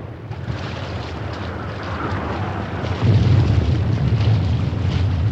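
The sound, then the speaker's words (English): A boat pulls away across the water after packs and wire reels go overboard and frogmen are left behind. A low, rumbling engine-and-water roar with wind-like rush swells louder partway through and stays steady. “Then the boat speeds away, leaving the men's heads bobbing in its wake.”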